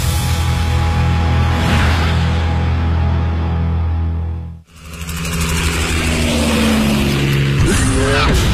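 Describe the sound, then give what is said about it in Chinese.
A sports car with an all-aluminium V8 petrol engine, full-time all-wheel drive and a top speed over 300 km/h roars loudly and steadily, cuts out briefly midway, then surges back with a loud, rising engine note. “配备 V 八引擎，全时四驱系统，全铝汽油发动机，最高时速超过每小时300公里”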